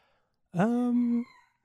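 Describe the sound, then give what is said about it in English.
A single rooster crow in Hawaii: one steady, harmonic call lasting under a second, clear and alone, with no talk around it. “I can hear, I don't know if our podcast listeners will be able to hear this, there's a rooster crowing in the background, and I'm just really amused by it.”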